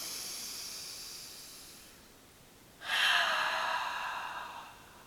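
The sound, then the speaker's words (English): A deep inhale through the nose during a guided breathing exercise: one smooth, airy, hissing breath that swells and then fades, following a softer breath before it. “So let's take 3 breaths together and just feel connected to every living thing on this planet. Inhale through the nose.”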